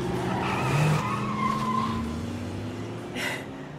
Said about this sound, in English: drives off in his hot rod.